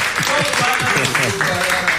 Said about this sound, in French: donc on applaudit pour Manassé. On applaudit Manassé.